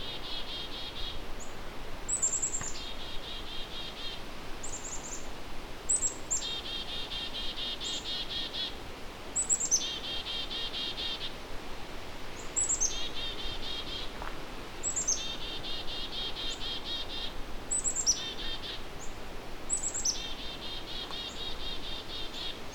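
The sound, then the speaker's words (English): Agitated black-capped chickadees giving harsh calls, high short notes followed by buzzy drawn-out notes, repeated every few seconds over a steady background hiss. “So we've got some annoyed sounding black-capped chickadees. I wonder what they're worked up about.”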